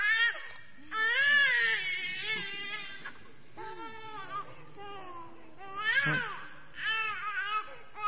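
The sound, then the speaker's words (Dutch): An infant cries during a church baptism, giving several wavering wails that rise and fall in pitch, with louder bursts near the start, middle and end and short pauses between them. “Maarten Luther, die zei dat het is een goed teken als het kind doopt, huilt bij de doop, want dan werkt het.”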